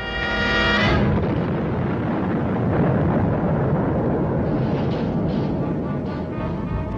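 A rocket launching after a countdown: a loud, sustained roaring blast of broad, rumbling noise that fills the whole clip, opening with a brief tonal sound before the roar settles in.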